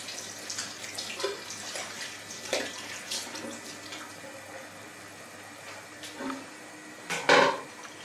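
A metal lid goes onto a pot of cooking soup. A few light clinks and clanks sound over a soft, watery background hiss, ending with a louder clattering knock.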